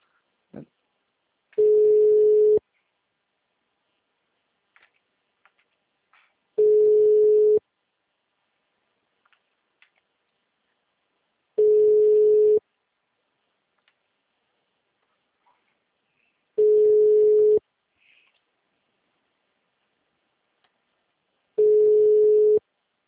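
Telephone ringing tone heard while placing a call: five evenly spaced, steady-pitched beeps about a second long, separated by roughly four seconds of near silence, with faint small clicks in between.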